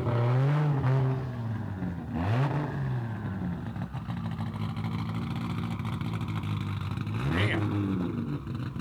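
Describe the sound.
A single-turbo Toyota Supra with a heavily cammed engine runs at a rough, lumpy idle, broken by a few sharp revs that surge up in pitch and drop back.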